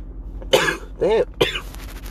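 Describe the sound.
Coughing from someone who has choked on a jolly, a hard candy: three rough, throaty coughs in quick succession, each short and fairly loud, with a raspy, throat-clearing edge.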